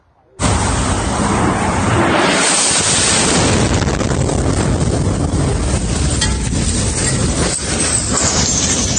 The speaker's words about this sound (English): A young girl was taking a video of herself. She was walking through Kyiv, and she was nearly hit by a rocket.